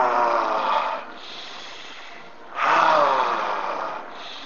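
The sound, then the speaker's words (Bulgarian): Deep breaths in a breathing exercise, each full inhalation filling the belly and chest before a powerful exhalation. Two loud, airy breath bursts are separated by a quieter, softer stretch of breathing. “Пълно вдишване, до мощно издишване.”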